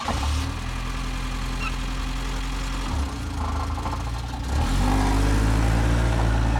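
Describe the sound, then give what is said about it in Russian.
A car engine runs at a steady low rumble, then revs up and grows louder as the car pulls away. “садится в машину и уезжает”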